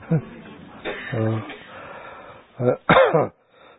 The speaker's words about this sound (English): Everybody's coughing.